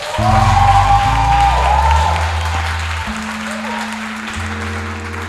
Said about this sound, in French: Qui se sent béni est-ce qu'il peut acclamer le Seigneur